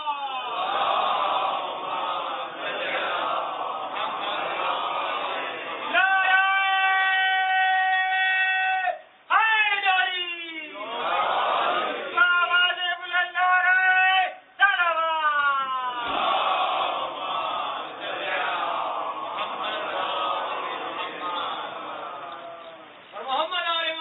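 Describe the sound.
A large gathering chants a loud salutation slogan in unison. Long, sustained voiced calls rise in waves, broken by two short pauses, with the massed voices ringing together.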